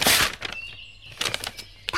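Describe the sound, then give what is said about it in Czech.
An envelope is carefully pulled out and opened, heard as paper rustling: a loud crinkling burst at the start, softer scattered crackles, then another rustling flurry and a short final crinkle. “Opatrně obálku vytáhnu. Otevřu.”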